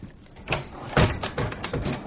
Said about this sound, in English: I thought I'd fasten that door.